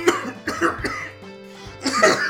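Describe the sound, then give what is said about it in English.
A person coughs in a harsh, raspy fit of several quick coughs, then pauses briefly before a final strained burst. “He's interrupted by this coughing fit, wipes the blood from his mouth, and notices that there is blood.”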